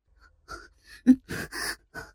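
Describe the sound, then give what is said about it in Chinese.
A woman breathes in rapid, uneven pants, a few short breathy gasps punctuated by one sharper, louder intake of breath. “发出急促的喘息声”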